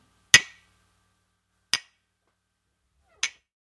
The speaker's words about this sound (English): I have my cup of tea here. It's English breakfast tea today, and a glass of water. And if I bang them together,